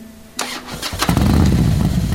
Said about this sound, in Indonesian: Akhirnya, motor kembali dalam posisi off kemudian dinyalakan kembali dengan starter tangan. Ajaibnya, kali ini berhasil.